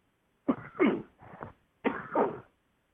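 Harsh, dry coughing after dust was inhaled: a few sharp bursts in two close clusters with a short pause between them, fairly loud and with no talk.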